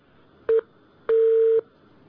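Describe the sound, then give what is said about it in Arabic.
A telephone disconnect tone sounds after a call is cut off: two steady electronic beeps at one unchanging pitch, a short one and then a longer one lasting about half a second, with silence around them. “قطع اتصال.”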